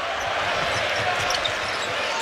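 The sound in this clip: Basketball dribbled on the court during a college game, with soft, regular bouncing thuds under a constant roar of crowd noise.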